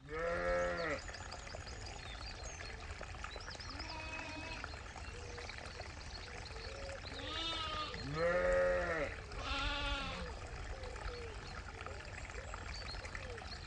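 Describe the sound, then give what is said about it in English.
Lambs and ewes bleating in the spring countryside: several wavering bleats, some high and thin and some deeper and louder, over a steady rushing background. “it's the sound of the countryside right now. Basically, step outside and lambs are being born.”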